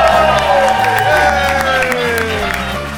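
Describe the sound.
A live audience at Star Wars Celebration Orlando 2017 cheers and claps loudly. Whoops and voices ride over the dense applause, which eases slightly toward the end.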